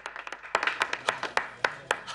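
Hand clapping from one man standing as another walks out of a bank meeting, many crisp, separate claps, quicker and lighter at first, then settling into a slower, louder, steady beat.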